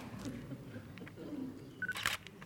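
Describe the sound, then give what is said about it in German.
A camera shutter firing as photos are taken: a short cluster of sharp mechanical clicks near the end, faint over low background noise. “Und da mache ich auch nochmal ein paar Fotos.”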